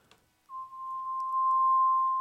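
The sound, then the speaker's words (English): A pure sine-wave tone plays a bass line, entering after a brief near-silence and holding one steady pitch while growing slightly louder to the end. “There's the sine wave version of the bass line that's playing.”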